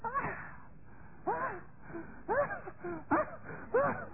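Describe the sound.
A person imitating the groaning of a woman in labour: a series of drawn-out, wavering moans in a muffled, narrowband voice, repeated several times with short pauses between.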